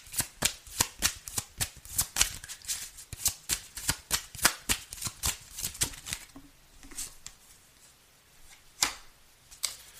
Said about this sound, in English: There's like 50-something cards in this deck. And this card comes out again.